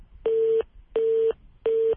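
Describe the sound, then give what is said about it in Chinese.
Busy tone after a phone call to a water-purifier sales line is abruptly cut off: three identical steady beeps at a single mid pitch, evenly spaced with short gaps, moderately loud with no voices. “电话突然被挂断，记者再次拨通了这个电话”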